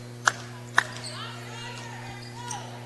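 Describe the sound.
Basketball dribbled on a court during a high school game: two sharp, loud bounces close together near the start, then a fainter thud later, over a steady low hum and faint background voices.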